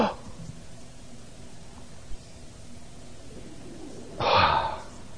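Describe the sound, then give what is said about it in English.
An audience at a sermon takes one big deep breath together, a single short breathy whoosh that swells near the end after a hushed stretch of low room noise. “Everybody, watch this. Big deep breath.”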